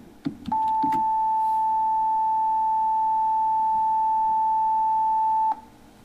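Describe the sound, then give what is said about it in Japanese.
A steady pure sine tone of the kind used in Japan's NHK time signal, held evenly for about five seconds after a few faint clicks, then cut off abruptly. “続いて、先ほどの音のまた倍、880Hz の音をどうぞ。”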